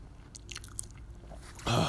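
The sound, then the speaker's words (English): Loud chewing and lip smacking while eating a glazed donut: moist, crunchy mouth sounds continue throughout and swell into a louder, denser burst near the end, with no talk. “If I'm smacking mad loud, it's not my fault.”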